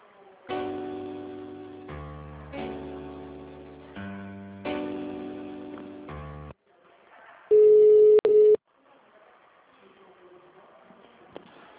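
Telephone tones while a call is transferred: a short synthetic melodic phrase repeats three times, then a single loud, steady tone lasts about a second before faint background noise.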